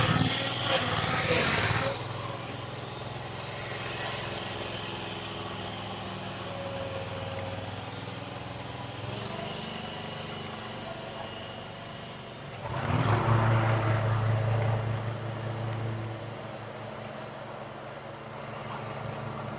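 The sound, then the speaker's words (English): A riding lawn mower's engine runs close by with a steady low drone and two louder surges, one at the start and one later on. “A lot of noise here. Hold on a second. Guy just started up his riding mower right beside me.”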